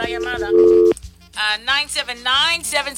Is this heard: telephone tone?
yes